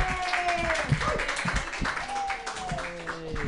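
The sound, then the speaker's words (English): An audience applauds and claps for a comedian as he is introduced at a comedy club night, with scattered, uneven claps mixed with voices throughout. “Put your hands together for Cody Abe.”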